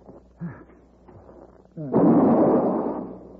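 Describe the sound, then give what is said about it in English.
A rifle shot: one sudden loud burst about halfway through, trailing into a long, rough, noisy decay that fades slowly. Before it comes a quieter stretch with a few faint, brief sounds. “I shot the redskin.”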